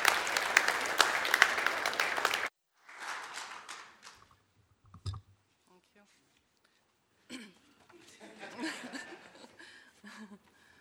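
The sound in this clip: Audience applause in a church welcoming the next speaker, a dense burst of clapping for about two seconds that stops abruptly, followed by scattered chuckles and quiet talk.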